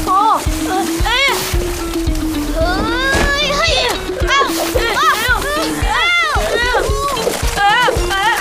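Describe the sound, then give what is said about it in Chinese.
Water spraying and splashing from a swamp in an animated scene, with repeated bursts of splashing and excited, high-pitched character voices talking over them. “沼泽怎么喷水了？ 快点把洞给堵上。”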